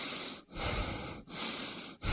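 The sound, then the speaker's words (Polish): A person breathes in and out on command, giving loud, airy, hissing breaths that flow almost continuously and are broken by a few brief pauses. “Proszę oddychać. Nie oddychać. Oddychać.”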